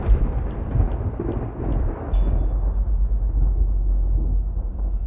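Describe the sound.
Heavy, low thunder rumbles continuously as a storm approaches, a deep rolling roar that stays loud and dense throughout.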